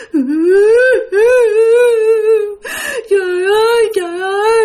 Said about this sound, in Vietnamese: bắt đầu nó khóc các bạn, nó khóc thảm thiết.